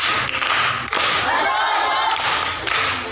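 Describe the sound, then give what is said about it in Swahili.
Audience applause for a schoolchild contestant at a school proverb contest, a sustained, dense patter of many hands clapping, fairly loud and even throughout. “Makofi kwa mjomba.”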